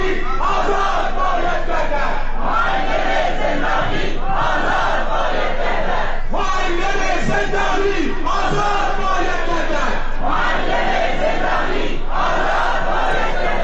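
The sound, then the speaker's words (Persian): Protest crowd chanting in Sanandaj: many voices shouting slogans in unison, loud and continuous, in rhythmic repeated phrases with brief breaths between them. “ما به سنندج بریم برای لحظاتی و صدای اعتراضات سنندج رو بشنویم و برگردیم.”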